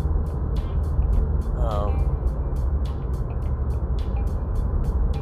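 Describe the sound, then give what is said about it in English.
A tiny Mazda 2 car drives along an access road in fierce, gusty wind. A steady low road rumble runs throughout, with repeated bursts of wind buffeting. “whoa, the wind is something fierce. Driving a tiny little Mazda 2, and the wind is just throwing me around like a rag doll. And I'm just driving on the access road.”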